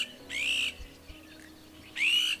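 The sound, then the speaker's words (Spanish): A flock of Iberian azure-winged magpies calling, heard as two harsh, drawn-out squawks separated by a long gap, with a faint background hum between them. “Son frecuentes también los bandos de rabilargos ibéricos,”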